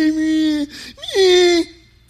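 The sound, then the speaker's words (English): An adult voice mimics a whining child: two drawn-out, nasal, high-pitched wails, the second with a short upward bend in pitch, alone and loud. “Stop whining. Stop crying. Grow up.”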